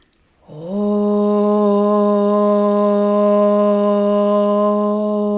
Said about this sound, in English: And then we'll inhale for one round of Om.